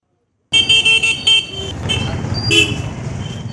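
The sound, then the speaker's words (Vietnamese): A car horn honking in street traffic: a few short, sharp toots come in quick succession, then give way to a continuous rumble of passing vehicles. “Có lẽ đó là tiếng còi xe vụt qua, tiếng bước chân vội vã trên mặt đường”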